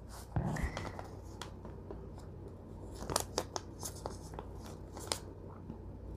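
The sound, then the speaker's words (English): Handwriting in a journal, with faint pen scratches and small taps on paper coming in short, irregular strokes across several seconds, and no talking. “I'm writing in the white bars. Okay, I guess I didn't explain that. I'm going to write in the white bands. Yeah, that's going to be my journaling space.”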